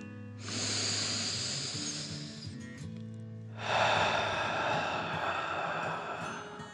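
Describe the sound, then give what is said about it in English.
Slow, dragon-like breathing in and out during a guided exercise: two long, airy hissing breaths, each lasting a few seconds, with a short pause between them over soft sustained tones. “Remember to breathe slowly like a dragon in and out.”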